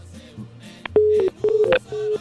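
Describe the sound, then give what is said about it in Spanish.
Telephone tones on a call-in line: three short, steady beeps, each a fraction of a second long, over faint background noise. “Bueno, el teléfono nuevamente, bendito Dios.”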